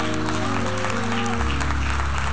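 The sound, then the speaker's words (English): A church audience claps their hands during a sermon, a busy, continuous patter of many hands over sustained low tones, keeping an even level throughout. “Come on, Shiloh, clap your hands.”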